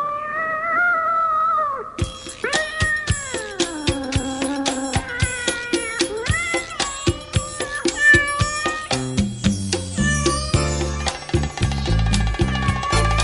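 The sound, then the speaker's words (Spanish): A cat meowing at night in an alley gives several long, loud, wavering meows with sliding pitch, set against sharp rhythmic clicks that build into a busier percussive pattern toward the end. “Que sí, que sí, que esta noche sí está aquí el gato, ahí está acurrucadito.”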